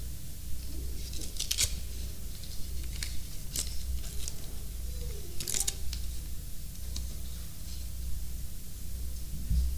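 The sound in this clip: Paper tearing as a Father's Day card envelope is pried open: a few short, crisp rips and rustles separated by pauses, over a faint steady hum.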